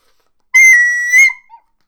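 A man whistles sharply, one loud, steady high note followed by a brief second burst and a faint short tail, heard alone with no talk.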